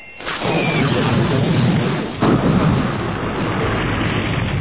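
A laser blast strikes a gun emplacement at a spaceport, producing a dense explosion-like roar. The low rumble swells after a brief onset, surges again in a second burst midway, and stays loud to the end.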